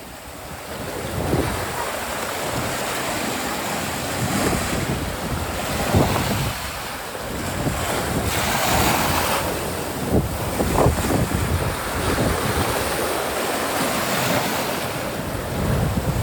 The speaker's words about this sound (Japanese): 現地でね波の音をね録音してきました。なんか皆さんちょっとでも少しだけでもね一緒にハワイ気分を味わってみてください。